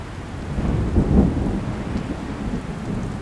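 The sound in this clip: A low, rolling thunder rumble comes from an intensifying, freezing storm, swelling and then easing, with a rough hiss of rain and wind running throughout.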